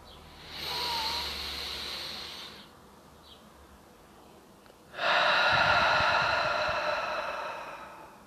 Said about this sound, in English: And let's finish this loving kindness meditation now by taking a full breath in and a full breath out.